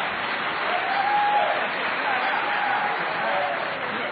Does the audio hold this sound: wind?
no

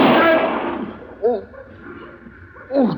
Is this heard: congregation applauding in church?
no

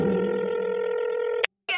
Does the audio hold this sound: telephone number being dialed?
yes

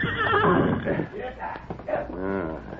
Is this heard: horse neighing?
yes

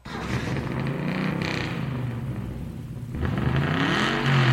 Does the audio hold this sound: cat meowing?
no

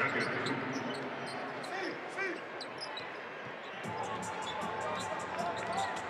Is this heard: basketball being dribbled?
yes

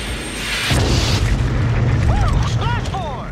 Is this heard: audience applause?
no

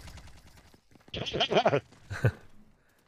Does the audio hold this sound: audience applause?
no

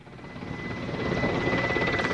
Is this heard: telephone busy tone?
no

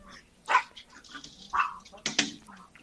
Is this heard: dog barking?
yes

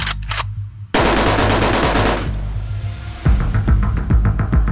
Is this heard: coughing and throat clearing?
no

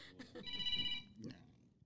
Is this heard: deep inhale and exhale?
no

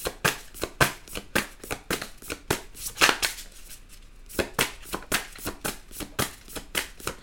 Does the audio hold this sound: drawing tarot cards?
yes

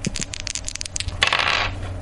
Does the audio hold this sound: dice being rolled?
yes

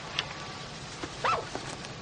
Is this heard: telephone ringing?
no

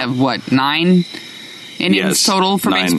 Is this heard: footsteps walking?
no

